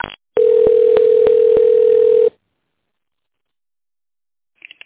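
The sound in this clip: Telephone tone heard while a business call is transferred to a specialist: a loud, steady mid-pitched tone with evenly spaced ticks lasting about two seconds, followed by silence and a brief faint sound at the end.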